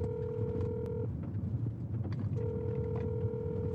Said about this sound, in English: Alright, we'll call. I'm calling. I'm calling.